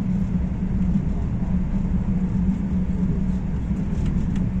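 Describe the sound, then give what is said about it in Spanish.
A high-speed train runs on the Córdoba–Seville line at up to 250 km/h. It makes a continuous low rumble with a steady hum, without any voices. “Es aquí donde también el tren puede superar el tope de 160 km por hora que mantenía por las líneas que lo permiten y podrá llegar hasta los 250 casi sin despeinarse.”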